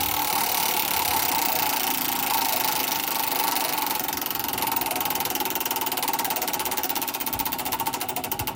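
A large prize wheel being pulled and spun gives a loud, rapid, continuous clatter of clicks that holds steady, then the individual ticks become more distinct toward the end as the spin loses speed.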